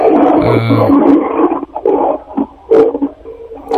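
Racing car engine roaring in loud, uneven bursts with a deep, growling, animal-like snarl and short dips between revs.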